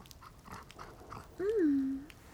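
A wolf gives a short whine that rises briefly and then falls off, standing out clearly after a stretch of faint, low background sound.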